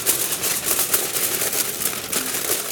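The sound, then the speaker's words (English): Aluminium foil crinkles continuously as it is loosely laid over a smoked roast in a pan, giving a steady, fairly loud bright rustle with no pauses. “So I'm gonna go ahead and take this roast off of the smoker and place it in my pan. Now I'm just gonna loosely cover this with foil.”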